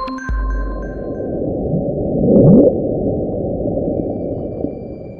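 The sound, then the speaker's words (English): The bloop, a mysterious and very loud underwater sound recorded in 1997, is a low, rumbling drone. It swells into a brief upward-sweeping surge midway, then settles back to a steady murmur. “The sound you just heard is one of the most mysterious underwater sounds we know of. It's called the bloop.”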